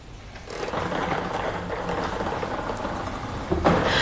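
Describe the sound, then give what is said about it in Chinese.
A sports lottery drawing machine for a seven-digit game starts up with numbered balls tumbling inside, a sustained mechanical whirring rattle that kicks in after a quiet moment and swells briefly near the end. “请工作人员启动摇奖机。”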